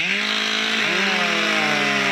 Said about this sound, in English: MacDaQuack's York Centennial Park was full of chainsaws, axes, and flying wood Saturday